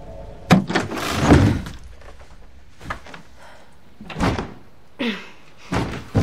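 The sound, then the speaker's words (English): A door being forced open into a dark room in a house against a heavy box blocking it: a series of heavy thuds, bangs and scraping shoves of uneven strength, with quieter gaps between the pushes. “Sam forces her way into a dark room, the door obstructed by a heavy box.”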